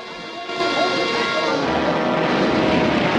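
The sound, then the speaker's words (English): An airplane belly-lands on water with a splash and skids along the surface, its burning engine adding to the din. A loud, broad rushing roar bursts in after a brief quieter moment and holds steady to the end. “The plane lands with a splash on its belly and skids through the water.”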